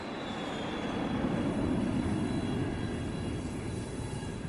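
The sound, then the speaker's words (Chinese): An airliner taking off on a flight to Switzerland, heard as a steady, broad engine roar with a hiss-like wash that holds evenly throughout, with no speech. “不久，飞往瑞士的航班腾空而起。”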